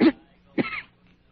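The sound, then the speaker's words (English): Two short, rough coughs from a feverish, weak patient lying ill, the second following about half a second after the first, both fairly soft and heard alone without talk. “Cough hurts.”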